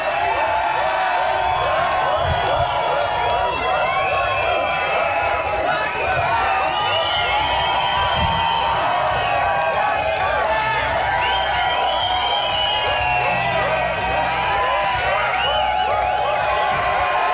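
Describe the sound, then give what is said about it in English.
A rock concert audience at the Empire Rock Club cheers, whoops and claps in a dense, sustained roar that stays loud from start to finish without a break. “Thank you very much. The greatest rock and roll audience in the world. All the rock and roll animals.”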